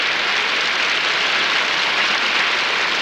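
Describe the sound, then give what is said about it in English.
Applause from a concert audience joined by orchestra members fills the whole stretch as a dense, even, loud hiss of many hands clapping, with no single claps standing out. “Many of them are now adding their applause to that of the audience.”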